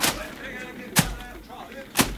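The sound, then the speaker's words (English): A wet bag beaten against a fire in a paddock lands in three heavy, dull thuds, each about a second apart and in a steady rhythm. Quieter background noise fills the gaps between the blows. “Bring a bag. Put it under that tap over there. Now start beating the fire there.”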